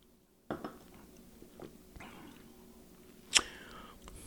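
Someone bites and chews a clear sour candy, giving a few faint crunches and soft mouth sounds, then one sharper, louder crack near the end.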